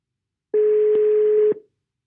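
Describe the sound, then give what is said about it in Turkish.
A telephone ringing tone plays as a call is placed: one steady mid-pitched tone about a second long, with small clicks at its start and end, heard alone. “Bugünkü konuğum Emre. Hemen arıyorum.”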